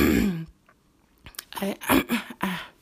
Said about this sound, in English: I do apologize for continuously clearing my throat.